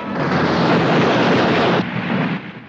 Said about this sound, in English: He soars past the anti-aircraft gunners, bursts of flak peppering the cliff face behind his plane.